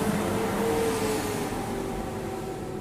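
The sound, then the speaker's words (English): Loud vehicles outside a house make a continuous rumbling engine drone with a low tonal hum, easing slightly toward the end. No one speaks. “A lot of loud vehicles outside my house today.”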